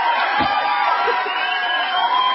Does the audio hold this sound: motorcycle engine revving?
no